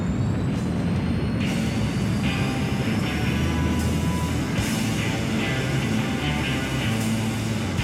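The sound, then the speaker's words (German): A spaceship launch effect from a German radio play: a dense, steady roaring rumble with hissing noise that holds at an even loudness throughout, with no voices over it. “Rücksturz zur Erde. Sehr wohl, Oberleutnant Morgenstern. Start wird eingeleitet. 3, 2, 1, 0.”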